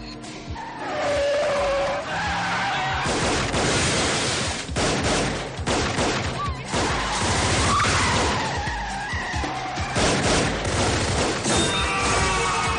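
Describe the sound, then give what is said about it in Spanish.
Tires squeal and cars roar through a chaotic city car chase in a 1999 action thriller film, with bursts of gunfire and crashes. The loud, busy mix is punctuated by sharp shots and swerving skids throughout. “Los dos vehículos van muy cerca el uno del otro, sembrando el caos en la circulación. Se adentran por distintos callejones. Debido a la lluvia de tiros, varios transeúntes caen heridos en la calle.”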